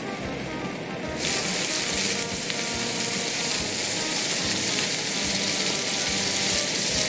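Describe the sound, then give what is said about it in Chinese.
Meat sizzling in a hot oiled wok while stir-frying. A quieter hiss bursts into loud, dense frying crackle as the meat goes in, then holds steady to the end. “我现在要煮了，然后我在油锅先起热，我首先要把那个肉放下去炒”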